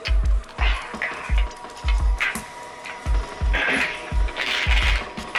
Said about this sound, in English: she's playing the slots.